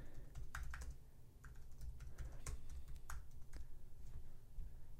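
Typing on a computer keyboard: many quick, faint, irregular key clicks at a steady pace, with no voices.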